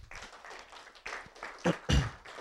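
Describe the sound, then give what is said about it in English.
A church audience applauds its leaders, the clapping starting soft and scattered and swelling into louder bursts toward the end. “Can you give your leaders a round of applause?”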